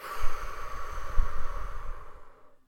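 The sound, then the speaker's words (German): One long breath drawn in through the nose makes a soft, airy rush that swells, holds and then fades out near the end. “Immer durch die Nase einatmen und durch den Mund ausatmen. Durch die Nase einatmen”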